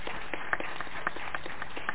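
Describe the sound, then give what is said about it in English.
Applause fills the historic Shiloh Baptist Church as an audience claps for a helper, a faint, continuous patter of many hands at an even level with only small scattered peaks. “Give him a big round of applause for helping us out.”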